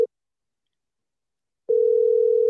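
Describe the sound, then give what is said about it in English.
An outgoing call to a pizza chain's number rings out: a very brief tone blip, more than a second of silence, then a steady, even ringback tone that holds to the end. “All right, so the number is just gonna ring.”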